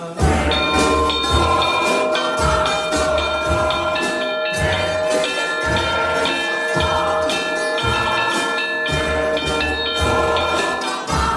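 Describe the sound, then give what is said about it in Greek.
Church bells ringing continuously and loudly, with sustained metallic tones layered over a steady rhythm of repeated low strikes. “Οι καμπάνες είναι από παλιά, είναι από τότε οι καμπάνες, πεντακάθαρος ήχος, άλλωστε οι καμπάνες ποτέ δεν χάνουν τον ήχο τους”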